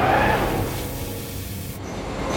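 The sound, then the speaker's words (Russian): Car brakes screech as a chase ends with a crash into a bus, heard as a loud, sustained grinding friction noise with broad rushing hiss that holds steady throughout. “Визг тормозов, и погоне конец.”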